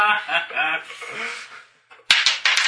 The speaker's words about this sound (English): Stop bouncing die.